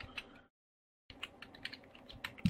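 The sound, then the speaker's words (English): Quick keystrokes patter on a computer keyboard while a search goes into Google, with a short clattering run, a brief silent pause, then a denser burst of typing. “I'm going to type that into Google.”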